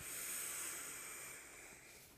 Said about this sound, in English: Sharp inhale at the top. And then exhale with the vocals. Like really hear it in your throat.